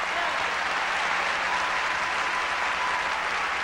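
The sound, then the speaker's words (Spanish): Steady, dense applause from an audience at a tribute event honoring a singer, sustained at an even level throughout with no clear voices above it. “Entonces, con ese aplauso yo quiero decirle muchas gracias, Faraona.”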